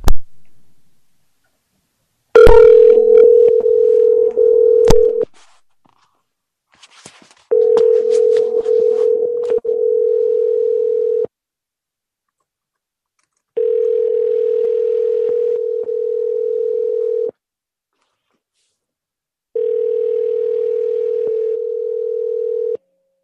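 A telephone rings on the line as a steady, mid-pitched ringback tone in four long bursts separated by silent gaps, with a few clicks near the start; no one speaks.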